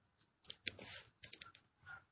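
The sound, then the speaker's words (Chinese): Soft typing on a keyboard, a few faint clicks in quick bursts. “我再给你打字啊”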